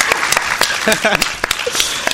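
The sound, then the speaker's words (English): Audience applause rings out at a live event to thank the restaurant staff who served Mexican food, steady clapping running the full two seconds beneath voices talking. “Let's just give a round of applause for the people here at Portis who are making this happen for us.”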